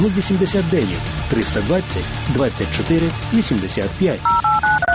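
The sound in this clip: Telephone keypad tones dial a number: a quick run of several short, bright beeps at shifting pitches comes at the end, after a stretch of a person talking.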